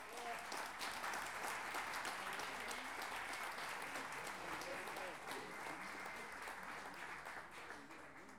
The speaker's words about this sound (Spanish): La primera pareja de esta tarde la recibimos con un aplauso: Felipe Soto y Rodrigo Torres.